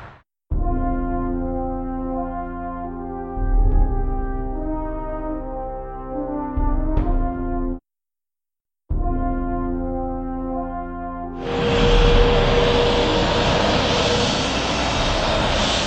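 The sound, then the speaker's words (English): Ambience at Exeter International Airport, a regional airport: a steady low tonal drone like an aircraft engine, a brief break, then a louder broad rushing roar that fills the rest. “Well, here I am at Exeter International Airport. It's one of the busier regional airports. Lots of flights coming in and out of here”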